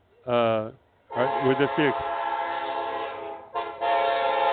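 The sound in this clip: A Union Pacific train horn sounds at a railroad museum festival in Rosenberg, Texas. It gives a short blast, then a long sustained chord, then another loud blast held to the end.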